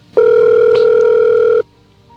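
A telephone call ringing out to a mother: a single loud, steady ringback tone lasting about a second and a half, starting and stopping abruptly.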